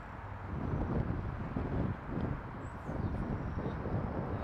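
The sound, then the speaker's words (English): Strong wind buffets the microphone beside a jumping platform, a loud low rumbling roar that surges in uneven gusts from start to finish. “pretty windy. And the fact that it's pushing me back towards the platform is not... it's the worst way for the wind to be going, in my opinion.”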